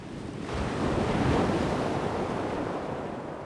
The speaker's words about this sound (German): Das ist jetzt Flut. Da ist hier immer richtig Rambatamba.